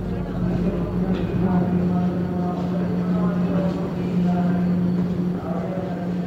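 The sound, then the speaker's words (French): Trains at busy Shinjuku railway station in Tokyo in the 1960s make a constant, loud rumble with a steady low hum running through it and faint, irregular knocks on top, without pause across the whole clip. “Nous sommes à la gare de Shinjuku. Des trains, encore des trains, toujours des trains.”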